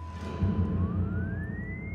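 A siren tone holds a steady pitch, then glides slowly and smoothly upward in a wailing glissando over a low rumbling background.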